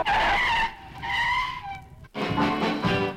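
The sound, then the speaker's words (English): Car tires squealing as a sound effect, with a few sharp, high screeches in loud bursts separated by short breaks. “I love sound effects, especially car sound effects. Tires squealing.”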